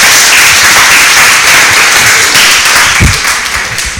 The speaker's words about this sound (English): give him a round of applause. He deserves it.